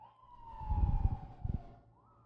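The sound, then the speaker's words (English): Faint ambulance siren a couple of streets away, a thin steady wail that slides slowly downward and then lifts at the end, with bursts of low rumbling noise through the middle. “That's a ambulance, probably a couple of streets over.”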